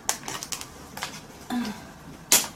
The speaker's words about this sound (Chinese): 好了，那现在我要打开包装，我要把它撕开。